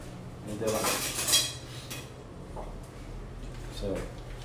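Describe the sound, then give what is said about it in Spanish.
Metal clatter of a frying pan being set on a stove as chicken breast is about to be cooked, with a burst of clanking cookware early on and lighter knocks later, while people talk. “So que vamos a empezar con la pechuguita vamos a tirarla, vamos a tirar el sartén. Un par caliente entonces.”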